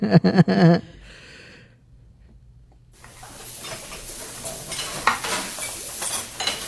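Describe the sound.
A spoon stirs a cooking pot, giving many light scrapes and clinks over a soft sizzle. They begin after a short vocal sound and a quiet pause, then grow busier toward the end.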